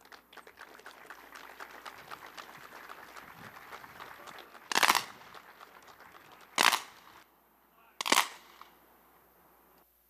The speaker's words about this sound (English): After the last name was read, there was a rifle salute, taps sounded